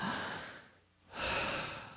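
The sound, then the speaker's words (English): Human breathing: a long, airy breath fades into a brief pause, then another long breath of rushing air follows. It is soft and steady, with no talk. “That's breathing.”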